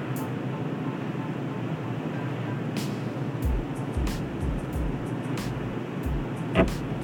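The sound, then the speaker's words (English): Steady engine and road rumble from a car creeping slowly over rough, bad roads, with a string of low thuds from bumps and a few sharp clicks in the second half. “It's usually just a 37 minute drive, but the way the roads are, I'm having to go really freaking slow.”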